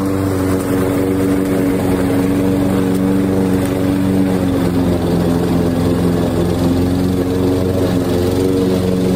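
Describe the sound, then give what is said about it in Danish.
A lawn mower cutting grass gives off a loud, steady engine drone with a low buzzing hum that holds unchanged from start to end, with no voices. “Det er sæson for at slå græs. Og det er jo dejligt, at græsset bliver kort, men det er lidt hårdt at sove i det der.”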